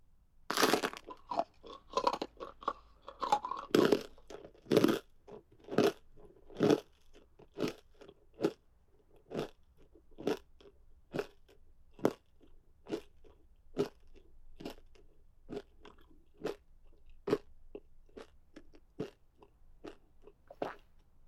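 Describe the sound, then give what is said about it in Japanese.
Crunching and chewing on leg bones: many sharp, loud bites in a steady rhythm. The bites are dense and heavy at first, then settle into evenly spaced crunches, with no talk. “足の骨食べるの楽しいね。”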